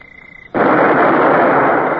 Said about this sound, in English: Open fire!